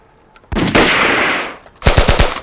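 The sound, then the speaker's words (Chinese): Loud gunfire during a police shootout: a long roaring automatic burst, a brief pause, then a quick string of about four sharp shots. “停止射击！”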